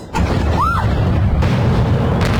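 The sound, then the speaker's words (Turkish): Deep boom of a struck missile depot exploding in Kyiv, Ukraine, bursting in abruptly and holding as a sustained low roar, with a brief whistling tone arcing up and back down over it early on. “En görünür patlamalar Kiev'de yaşandı. Ukrayna'nın başkentinde füze deposu böyle isabet aldı.”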